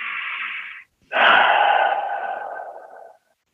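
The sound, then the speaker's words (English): An easy, natural inhale through the airway is followed by a short pause, then a long, smooth, slow exhale that lasts about twice as long and fades out gradually. The breath sounds are soft and airy, with no talking. “You're taking a natural, easy inhale and you're having a long, smooth, slow exhale.”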